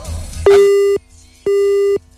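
Busy tone on a phone line after a call cuts off: two steady mid-pitched beeps of about half a second each, separated by a brief silence, following a moment of line noise.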